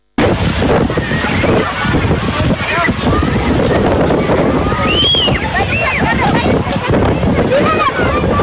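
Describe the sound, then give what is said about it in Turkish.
Storm wind roars and buffets the microphone while it blows dust over a football stadium in Cabo San Lucas, Mexico: a loud, continuous rushing noise with gusty surges, and voices calling out over it. “Meksika'da El Arsenal stadyumunu vuran fırtına sonucu oluşan toz bulutu nedeniyle oyuncular ve izleyiciler stadyumu terk etmek zorunda kaldı.”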